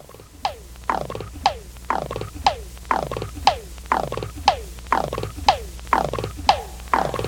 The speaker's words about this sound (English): Now that popping sound that you hear was created with this small Indian tabla.